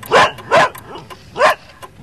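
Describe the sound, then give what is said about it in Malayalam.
A dog barks three times in loud, sharp bursts. The first two come close together, and a longer pause falls before the third. No voices are heard. “നിർത്തടാ നായിന്റെ മോനെ. അല്ല പിന്നെ അവന്റെ ഒരു കൊര.”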